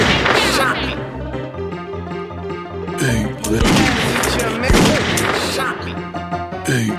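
Gunfire in the video game Grizzly Gulch: a couple of sharp, loud blasts burst out over continuous game music, each ringing briefly before the melody carries on.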